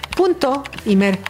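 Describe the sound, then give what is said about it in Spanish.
Fast computer-keyboard typing as someone enters a web address: several sharp key clicks come in short bursts, mixed with a tonal, voice-like sound that rises and falls over the clicks. “Necesitas un dispositivo con acceso a internet y le tecleas”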